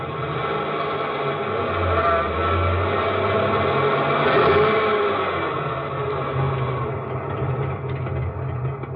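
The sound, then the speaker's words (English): A car engine runs as a couple of men pull up in front of a garage on 53rd Street and drive in, a steady low rumble that continues throughout with no talk over it. “one morning on 53rd Street, a couple of guys were just pulling up in front of a garage. This the garage? Yeah. Go on,”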